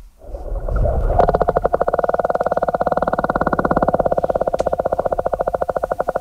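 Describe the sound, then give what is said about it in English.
Sperm whale clicks: after a low, murky rumble, a rapid, evenly spaced train of sharp clicks begins and pulses steadily at the same loudness to the end, with no voices. “Well, that's the sound of a sperm whale's clicks, a complex language they use to communicate and navigate through the ocean.”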